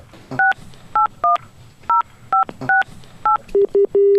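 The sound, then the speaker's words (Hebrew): Telephone keypad tones as a number is dialed to call someone: seven crisp dual-tone beeps in an uneven rhythm, then a few lower, plainer tones, with no voices. “יאללה, בוא נתקשר אליו.”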